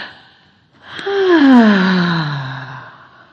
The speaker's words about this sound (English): This time, I want to hear the ha. Exhale down. Ha.